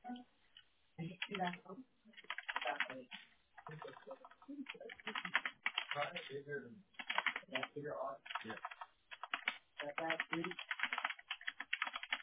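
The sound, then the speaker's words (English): Typing a note on a computer keyboard: bursts of quick key clicks with short pauses between them, running under a voice talking. “Let me just type in this note really quick of what you told me because I don't want to forget what you said.”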